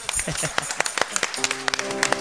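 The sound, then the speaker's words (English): Uneven hand clapping at a religious gathering, sharp individual claps at irregular intervals, joined partway through by a sustained steady tone, with some voices mixed in. “Well, you all gave us such a light hand clap. Give God a big hand clap.”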